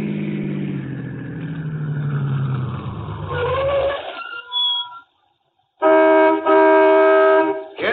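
A car engine rumbles and winds down as the vehicle pulls into a gas station on a lonely mountain road at night. The engine falls silent, followed by a brief pause and then a bright, sustained ringing tone.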